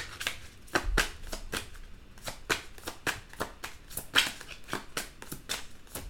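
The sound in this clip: Tarot cards shuffled by hand before one is drawn: many crisp, papery slaps and riffles repeat in an uneven rhythm, fairly faint and heard alone without talk.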